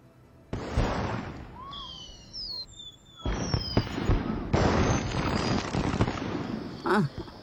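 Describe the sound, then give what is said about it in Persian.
Fireworks going off: loud, sustained crackling bursts mixed with whistling tones that sweep in pitch, with dense popping and booming filling most of the stretch. “نمیخواستم آتیش بازی رو از دست بدی.”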